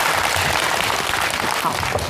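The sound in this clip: Audience applause welcoming two hospital doctors as guests. It is a dense, continuous patter of many clapping hands, steady and loud throughout.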